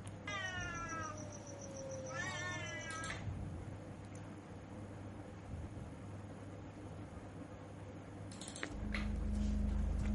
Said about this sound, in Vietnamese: ma mèo phát ra một tiếng gào thảm